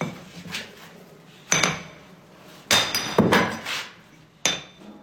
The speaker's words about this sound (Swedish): Han slår på sidan av stenen med en stor mejsel så att rätt stora bitar far bort.